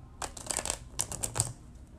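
Tarot cards being shuffled: quick, crisp riffling bursts in a faint, rapid cluster with no voices.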